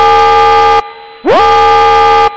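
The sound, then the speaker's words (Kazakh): A fire alarm sounds in a building: two loud, buzzing horn-like tones separated by a short silence, the second one swooping up in pitch as it starts before holding steady. “Назар аударыңыздар. Өрт дабылы.”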